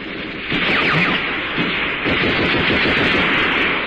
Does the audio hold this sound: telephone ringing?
no